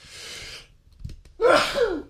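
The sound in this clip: A person sneezes during a talk show about phone apps. A breathy intake comes first, then a brief pause, and finally a loud, sharp sneeze burst that trails off.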